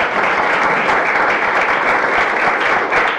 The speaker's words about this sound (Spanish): así que les pido un aplauso para Tati,